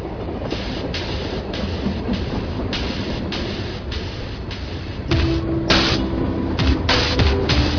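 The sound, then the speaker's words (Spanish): Freight train with wagons carrying prisoners, at Alanís de la Sierra station in November 1937, rumbles along with a steady rhythmic clatter of wheels on rail joints, growing louder after about five seconds alongside a faint tonal hum. “prisioneros que estaban en un tren, en unos vagones de tren. Lo escuchamos.”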